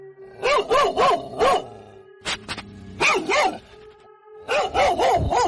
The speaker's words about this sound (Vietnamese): tôi bị tiếng chó sủa ở bên ngoài làm cho tỉnh giấc